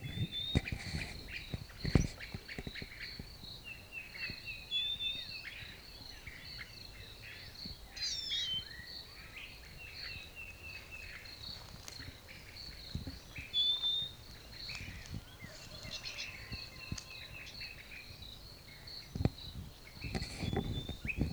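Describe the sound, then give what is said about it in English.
A wild bird gives brief, repeated high chirps and short calls at irregular intervals, faint over a steady background buzz that sounds like insects, with no voices. “wild bird.”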